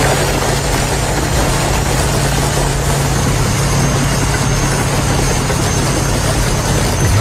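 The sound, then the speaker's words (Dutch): Heavy engines of two bulldozers crushing 200 scooters give a loud, steady, low diesel drone with a vibrating rumble that holds even throughout. “Deze 200 scooters, korte metten zei ik al, werden letterlijk verpletterd door twee bulldozers. Dat klonk zo.”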